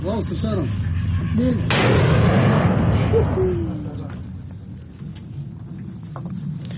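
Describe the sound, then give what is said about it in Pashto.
Artillery fire on the outskirts of Mosul, Iraq, during a military offensive: a sharp, broad blast breaks in about a third of the way through and rolls into a sustained, heavy rumble that gradually fades. A voice is faintly audible near the start. “د موسل ښار په څنډو کې د توپخانې ډزې اورېدل کېږي”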